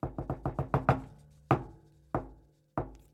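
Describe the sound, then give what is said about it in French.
Theatre knocks before the curtain rises: a quick run of wooden knocks, then three slow, evenly spaced, heavy knocks that ring out alone. “Aujourd'hui, nous allons frapper les trois coups.”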